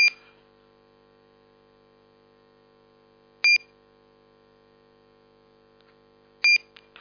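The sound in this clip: Electronic voting system beeps during a city council vote: three short, sharp, high beeps spaced a few seconds apart, heard over a steady low electrical hum with no talking.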